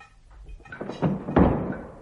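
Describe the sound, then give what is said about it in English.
A door is pulled shut with two dull wooden thuds in quick succession, the second one heavier, over a faint background murmur. “Close the door.”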